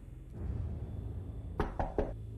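Three evenly spaced knocks on a door, sharp and fairly loud, sound over a low, steady background hum.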